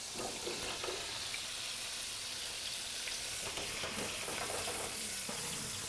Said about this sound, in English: Now we raise the flame, and now it's time I want to saute this patera.